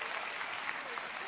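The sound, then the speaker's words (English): A church audience applauds to welcome a volunteer onto the stage, with dense, even clapping that holds steady from start to finish. “Let's welcome her to the stage. Yeah, welcome her.”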